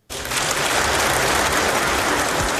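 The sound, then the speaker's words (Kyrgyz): Applause at a joint session of both chambers of the Kazakh parliament during Nursultan Nazarbayev's address: many hands start clapping abruptly and keep up a dense, loud, steady patter to the end. “Нурсултан Назарбаевдин Казак парламентинин эки палатасынын биргелешкен жыйынындагы 30 мүнөттүк кайрылуусу бир нече жолу кол чабуулар менен коштолду.”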